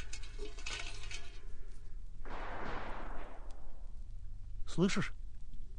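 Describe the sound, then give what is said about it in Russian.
Gunfire on a road toward Odessa, where horses are being watered at a well: one heavy blast with a long fading tail, then later a short sharp crack, over a low steady rumble. “Слышишь? Что это за стрельба?”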